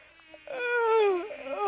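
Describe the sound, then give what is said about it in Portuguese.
A voice imitates the whine of Anopheles mosquitoes at night, a nasal droning tone that slides down in pitch and then bends back up, lasting about a second. “Ah, seus mosquitos anófilos, deixe-me em paz.”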